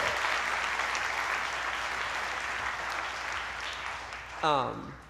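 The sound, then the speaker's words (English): An audience applauds first-time guests, sustained dense clapping that holds steady and eases slightly before a single voice breaks in near the end. “Can we put our hands together for our first time guests?”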